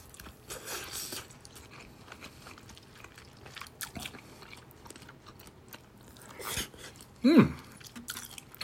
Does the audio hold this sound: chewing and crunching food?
yes